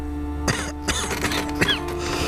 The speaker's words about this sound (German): Husten Sie.